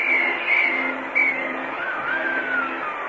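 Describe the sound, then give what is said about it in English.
A cab pushes through a crowded Milwaukee street with civilians and sailors riding on its back. A steady engine drone runs beneath high, wavering squeal-like tones that glide up and down. “We have a cab trying to get through, and there's a whole bunch of civilians and sailors on the back of that cab”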